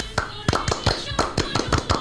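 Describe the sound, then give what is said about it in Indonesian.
Rhythmic clapping in the Indonesian Scout routine Tepuk Pramuka, many crisp, loud hand claps in a quick patterned sequence with brief pauses between groups. “Salam Pramuka. Oke, salam. Tepuk Pramuka.”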